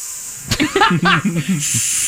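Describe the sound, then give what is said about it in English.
A person's voice imitates a snake's hiss with a steady, breathy hiss. A short run of voiced sounds interrupts it before the hissing resumes. “It's either a snake or a gas leak. Either way, his impression is spot on.”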